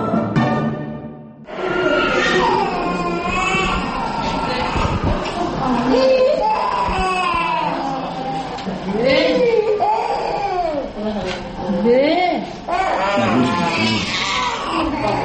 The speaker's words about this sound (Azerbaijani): Simya mərkəzində ancaq körpələr belə yanğılı ağlayırlar.